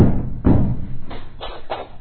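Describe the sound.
Pounding on a door: a few heavy, dull thuds with uneven spacing, loud at first and then slightly softer, standing alone without talk.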